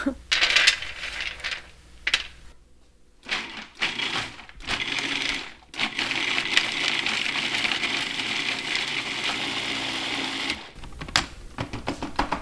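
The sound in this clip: A blender grinds a quarter cup of almonds with roasted red peppers, garlic and herbs, first in short, harsh bursts and then in one long, loud, gritty whir that cuts off abruptly, followed by a few clattering knocks.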